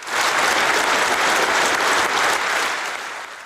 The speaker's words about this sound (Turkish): Davara qatnaşan hökümeti we pahalı halk vekilleri yadaw bakışların astına şowkunu el çarpıp täze prezidenti kutlady.